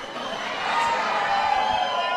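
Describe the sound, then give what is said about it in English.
Rowdy crowd cheering and whooping at a White House reception, a dense, steady roar of many voices that grows a little louder after the opening moments. “Hey, this is a rowdy crowd, I can tell. They're ready to party.”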